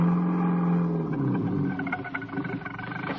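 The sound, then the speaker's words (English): A car crawling slowly along a road through thick fog at night gives off a continuous low engine drone with a steady hum, which turns rougher and more uneven in the latter half. No voices are heard. “John Steed, intent on getting to Mrs. Peel as swiftly as possible, was crawling his way through the fog. He was driving more by instinct than anything else.”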